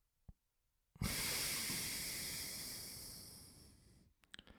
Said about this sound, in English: So we breathe in through our left nostril. and then we breathe out through our left nostril.